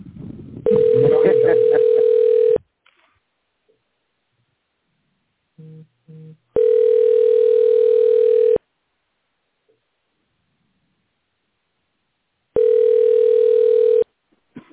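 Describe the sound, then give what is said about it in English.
Telephone line tone after the caller hangs up, a steady mid-pitched tone in three roughly two-second bursts separated by long silences, with a voice under the first burst and two short beeps before the second. “Oh, he hung up.”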